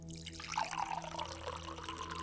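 A drink being poured, a faint, continuous trickling and gurgling of liquid that keeps going without a break.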